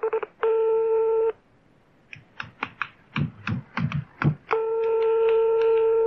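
A telephone is dialed to call a karaoke bar: a steady dial tone, then a quick run of many separate keypad beeps, then a steady tone again. No voices.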